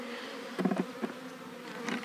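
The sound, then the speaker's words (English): Honeybees buzzing around a caged queen bee make a soft, fluttering drone with a few brief, louder swells. “So the bees can get at her and feed her.”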